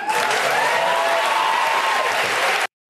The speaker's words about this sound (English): What's up with the audience, actually? I just wanted to hear what he sounded like, but the audience, that was like a pretty mundane thing to say. Woo! Anyway, that's the Colbert crowd for you.